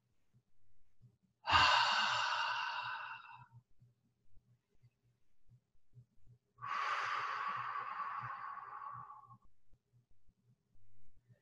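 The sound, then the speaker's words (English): A deep breath is drawn in through the nose, then let out through the mouth in a long breathy sigh. The two airy swells are separated by a short pause, over a faint low hum. “Let's take a nice deep breath, please, in through the nose, out through the mouth.”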